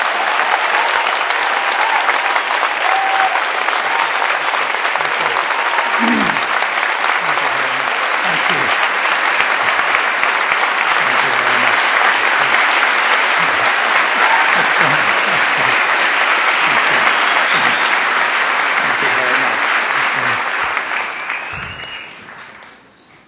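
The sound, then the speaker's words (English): An audience at Calvary Chapel applauds to welcome a guest speaker: loud, sustained clapping with some crowd noise runs steadily for about twenty seconds, then fades out at the end. “ladies and gentlemen, without further ado, let's give a Calvary Chapel welcome to Dr. Ravi Zacharias.”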